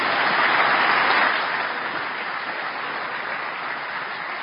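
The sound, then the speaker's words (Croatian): Applause from a crowd after a hockey team's victory ceremony at the Olympic Games in Korea: dense, continuous clapping, loud at first and easing slightly to a steady sustained level, with no talk over it. “Još jedan aplauz za ruski.”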